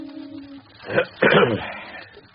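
A man clears his throat in two short, gruff bursts, the second longer and rougher, with quiet before and after.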